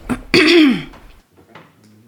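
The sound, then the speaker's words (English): A woman clears her throat loudly: a short burst followed by a longer, rasping clear, then fainter sounds trailing off. “She walks over behind him and clears her throat loudly.”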